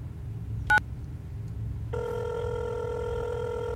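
Telephone ringing after a number is dialed: one brief keypad beep, then a steady, loud electronic ringback tone that starts partway through and holds to the end over low background hum.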